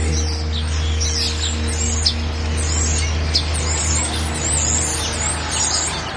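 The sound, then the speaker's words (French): Birds sing with many quick, high chirps and twitters over a steady low rumble that runs through the whole clip. “Les oiseaux ici, chantent pas pareil. On dirait qu'ils ont un autre accent.”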